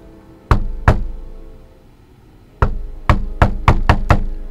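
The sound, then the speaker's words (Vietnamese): Knocking on a door, sharp and loud: two knocks, a pause, then a rapid run of six more hollow thuds in quick succession, with no voices. “bỗng có tiếng gõ cửa liên hồi”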